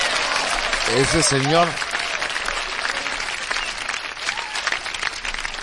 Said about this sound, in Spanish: Y yo quiero mandarle a Don Jesús, de verdad, un corazón y un aplauso bien grande a él hasta el cielo.